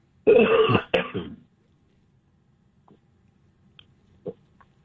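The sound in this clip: Someone clearing their throat: one loud rasping burst quickly followed by a shorter one, then near silence broken by a few faint clicks.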